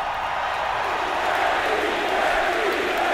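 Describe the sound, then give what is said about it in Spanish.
Standing ovation from a stadium crowd, heard as a dense, steady roar of massed voices and noise with no single clap or shout standing out. The level stays even and loud throughout. “Bueno, escuchamos una ovación de pie, como muchas veces las hemos escuchado en el estadio”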